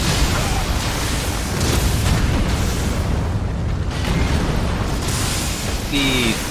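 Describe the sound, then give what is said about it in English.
A weapon attack explosion in a video game, a lightning spear strike, heard as a loud, dense, continuous roaring blast that fills the whole clip, with only slight swells in strength. “The Bolt of Gransax seems to do a very sufficient amount of damage.”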